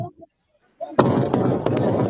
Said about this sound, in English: And there's a bomb in the background, so the grenade actually goes off inside of the shelter.